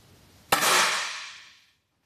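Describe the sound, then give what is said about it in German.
A rifle shot at a shooting target rings out sharp and loud, its bright tail fading over more than a second, then the sudden start of another shot cuts in at the very end. “Sie schiesst dreimal.”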